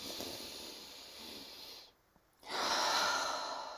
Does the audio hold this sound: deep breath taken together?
yes